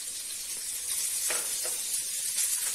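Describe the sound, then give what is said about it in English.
Mushrooms sizzle in ghee in a pan, a steady bright hiss with a few soft crackles throughout and no talking. “So first you add the mushrooms. Champiñones. Mantequilla. With the ghee.”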